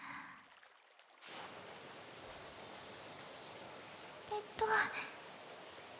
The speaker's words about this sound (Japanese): まずはシャワーを出しまして、